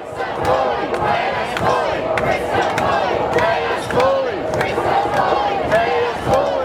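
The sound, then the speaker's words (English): Crowd chanting at a Queensland Teachers Union strike in Brisbane in August, where striking teachers rallied. A dense mass of voices chants steadily and loudly, sustained throughout with slight rhythmic swells. “What you just heard was from the Queensland Teachers Union strike in Brisbane in August of this year.”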